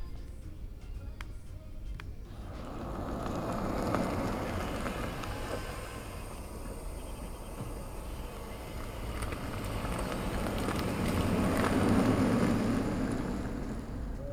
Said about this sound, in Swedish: ett elfordon helt utan ett pålagt ljud. Utan det är bara en inspelning och det är då ett fordon som rör sig mot ett övergångsställe och sedan kör iväg.